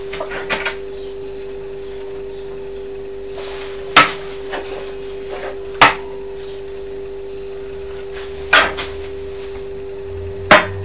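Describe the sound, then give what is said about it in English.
Knife chopping fruit, heard as a few sharp, isolated knocks spaced roughly two seconds apart over a steady faint hum. “Let's just chop this one a bit more.”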